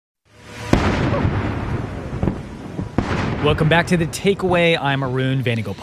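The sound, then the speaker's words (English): Artillery booms from a 21-gun salute greeting a visiting president arriving in India, a few sharp blasts with long rumbling tails, followed by a man speaking over the continuing rumble. “That's the sound of the 21-gun salute greeting President Trump as he arrived in India this week.”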